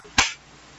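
A group claps hands together on a count, landing as one sharp, loud, short crack that dies away quickly into near quiet.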